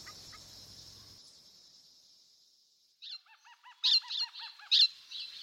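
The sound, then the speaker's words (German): Excited screeching of birds in the morning: after a near-silent opening with a faint fading high tone, several harsh, honking calls burst out in quick succession, with the loudest near the end. “Am nächsten Morgen reißt mich das aufgeregte Geschrei von Vögeln aus dem Schlaf.”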